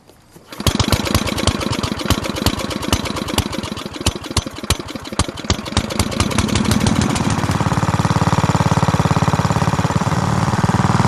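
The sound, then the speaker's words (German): A Swiss moped engine starts up and runs, beginning with rapid, loud sputtering pulses that speed up and blur into a steady, buzzing drone. “Das ist Jura beim Töffli fahren.”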